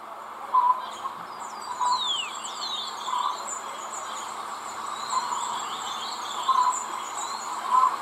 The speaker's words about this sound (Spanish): gorriones.